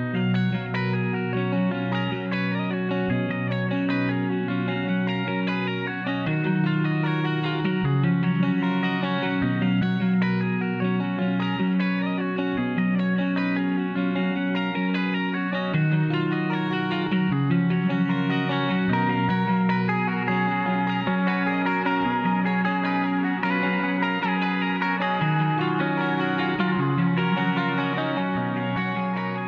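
An instrumental guitar piece in an experimental emo style, layered with effects such as distortion, chorus and echo, plays continuously at a steady loudness throughout, with dense sustained chords and melodic lines and no voices.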